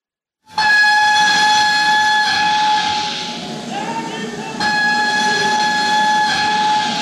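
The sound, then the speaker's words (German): Steam train at a Paris railway station in 1871: a loud, steady whistle holds one pitch over hissing, rumbling noise, dips briefly about midway, then returns at full strength. “Paris, 19. März 1871, Bahnhof.”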